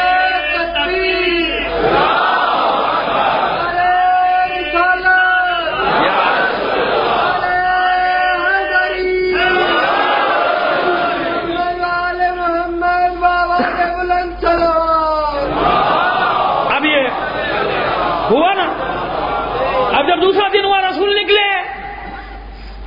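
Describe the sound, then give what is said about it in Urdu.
Crowd shouting slogans in unison at a religious gathering: loud, ringing massed voices rise in repeated bursts over about twenty seconds, each cry swelling and breaking off before the next begins. “دوسرے دن صبح تینوں نعرے لگائیے تو مجھے مزہ آئے گا.”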